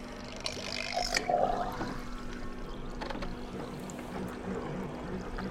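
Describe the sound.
A rotating aquarium of water in an applied mathematics laboratory starts to spin. A steady low motor hum runs under faint sloshing and trickling water, which is busiest near the start.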